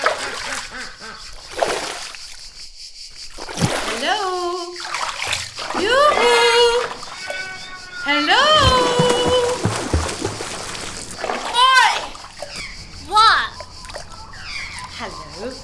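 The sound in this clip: Water splashes and sloshes in bursts as someone swims in a large dam, with voices speaking in between.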